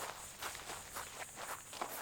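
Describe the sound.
Footsteps of a person walking off to pray in a dramatized Bible scene: a steady series of soft, evenly spaced steps at a moderate level, with no voices.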